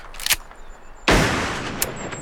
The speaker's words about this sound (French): Vite, ma carabine.